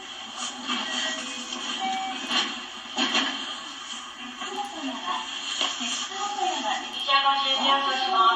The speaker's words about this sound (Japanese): 無事摂津本山駅に到着してみました、まあ、その時の音がありますので聞いてください